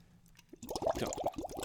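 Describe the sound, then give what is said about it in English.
Bubbles blown into a drink: a soft low rumble gives way to a quick, irregular run of gurgles, plops and bubbling liquid, faint and with no talk. “you're blowing bubbles”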